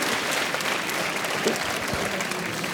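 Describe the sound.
An audience at an exhibition-hall tech event applauds to welcome panel speakers from Microsoft and Capgemini. The clapping is a continuous, even, fairly soft patter with no clear breaks.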